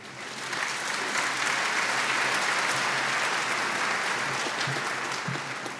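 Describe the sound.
Audience applause welcomes a speaker about to give a personal testimony, a steady wash of many hands clapping that swells quickly and holds evenly for about five seconds without voices.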